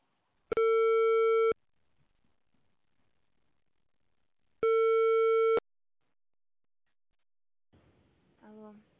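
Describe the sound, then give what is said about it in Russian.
A telephone ringback tone plays while an intercom call connects: two long, buzzy tones of about a second each, separated by a gap of roughly three seconds. A brief voice follows at the very end. “Для соединения с абонентом нажмите кнопку 0. Начинаем звонить абоненту. Ожидайте соединения.”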